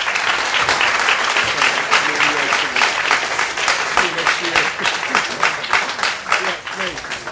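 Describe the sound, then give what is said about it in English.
Audience applause at the close of a Jewish religious lecture, sustained, fairly loud clapping from many hands, with a voice speaking through it. “a big thank you and a round of applause for”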